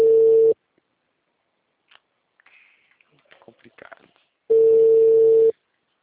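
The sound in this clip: The ringback tone of an unanswered telephone call sounds as two short, steady buzzing tones about four seconds apart. Faint scattered clicks and rustles fill the quiet gap between them.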